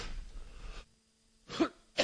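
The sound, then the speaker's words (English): Coughing straight into a microphone: a rough, breathy burst, then a short silence, then two sharp, loud coughs close together. No speech is heard. “Sorry about coughing in the mic.”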